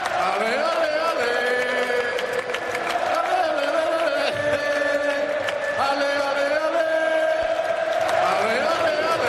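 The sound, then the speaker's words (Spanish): A large crowd sings together at Xavi's presentation as FC Barcelona coach, with Xavi and Laporta singing along on microphones; loud, sustained sung tones stretch across the whole moment, with pitch shifts between phrases. “Y esto derivó, después de un pequeño discurso de Laporta y de Xavi, en los dos, micrófono en mano, cantando con el público.”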